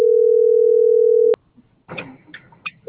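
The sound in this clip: Ringing tone of an outgoing telephone call: one steady electronic tone sounds loud for just over a second, stops abruptly, and quieter voices follow.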